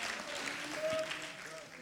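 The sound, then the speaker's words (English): Congregation clapping hands in a steady, dense wash of applause, with faint sustained tones running beneath it. “if you've ever been rewarded by your faith, could you clap your hands as if to say, faith, faith, faith, just a little bit of faith.”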